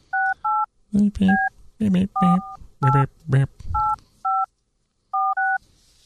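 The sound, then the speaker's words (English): Telephone keypad dialing tones sound as a series of short, clean dual-pitched beeps interleaved with voiced speech-like bursts, moderately loud, with brief gaps between each press. “We're going to dial my next guest here.”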